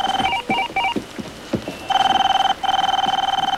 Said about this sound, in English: Farley, get the phone.